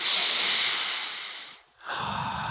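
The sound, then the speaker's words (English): A deep human breath, with a long airy hiss as air is drawn in, a brief silent pause, then a softer breathy exhale, with no talking. “And I think it would be appropriate if we just take a couple of deep breaths.”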